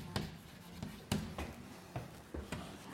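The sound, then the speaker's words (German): Handwriting of a maths limit formula, with several short, quiet tapping strokes at an uneven pace. “ich wollte es noch anders schreiben”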